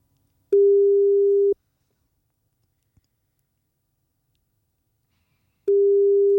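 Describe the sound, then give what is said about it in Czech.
A telephone ringing tone on a call: a steady low hum lasts about a second, then a long silence broken only by a faint click, before the same one-second hum returns. “Jestli navážem spojení a jestli to zvedne, tak je to tady.”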